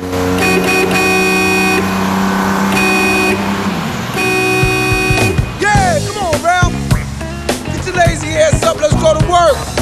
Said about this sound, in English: He waves back as a car horn blares repeatedly.